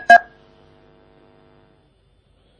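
A telephone call is cut off: one short, sharp electronic beep, then a faint tone that fades into silence.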